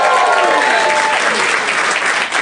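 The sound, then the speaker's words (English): A live theater audience at the UCB Theater in Los Angeles applauds in loud, dense clapping that holds steady throughout and eases slightly at the very end. “We are at the UCB Theater in Los Angeles in front of a live audience. Let's hear it, audience.”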